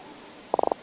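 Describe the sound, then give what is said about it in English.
An Atlantic croaker fish croaking: five quick, evenly spaced drumming pulses in a short burst, standing out clearly against a faint, steady background hiss. “That's an Atlantic croaker making the noise for which it's named.”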